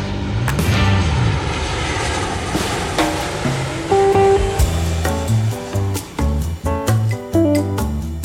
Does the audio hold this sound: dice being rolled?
no

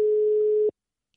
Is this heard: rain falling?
no

